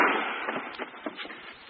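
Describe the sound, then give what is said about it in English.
A single gunshot in a radio drama, a sharp bang at the very start trailing into a rough, decaying rumble, no voices. “I have one shot left, Shadow. I saved it for myself.”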